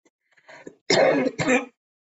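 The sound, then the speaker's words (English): Throat clearing from a tickle in the throat: a few soft rasps, then two loud, harsh clearing bursts in quick succession, with no talking. “I have a tickle in my throat that I wish would go away right now, but it won't. In fact, it's getting worse.”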